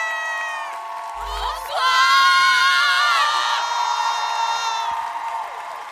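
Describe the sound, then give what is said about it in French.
A crowd at a live event gives an ovation of loud cheering, whoops and high-pitched shouts. The noise swells sharply after a moment, stays strong for several seconds, then gradually eases. “Mesdames et messieurs, merci de faire une ovation au DS du podcast français. Merci d'ovationner 4 quarts d'heure, s'il vous plaît.”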